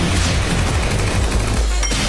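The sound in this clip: A flashbang grenade explodes in a video game: a loud, dense blast of noise that fills the whole clip, with a brief high tone near the end.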